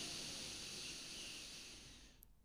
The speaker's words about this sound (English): Deep breath in through your nose, deep into the belly. And out through the mouth. One more time. Deep breath in.